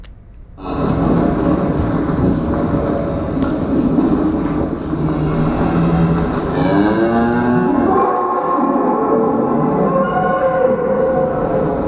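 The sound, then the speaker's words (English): Cattle calling inside an industrial slaughterhouse pen in Ireland, within a metal-walled, auditorium-like stockyard structure: many overlapping moos and bellows form a loud, continuous din, with drawn-out tonal calls rising above the herd noise. “an industrial cattle slaughterhouse in Ireland. As you stand nestled within a pen, the calls of your penmates reverberate against the metal walls of the auditorium-like structure.”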